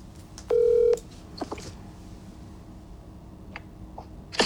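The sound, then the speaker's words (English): A telephone number is dialed: one loud, steady touch-tone beep, followed by faint scattered ticks over low background hiss. “So let's see if we can get him on the phone.”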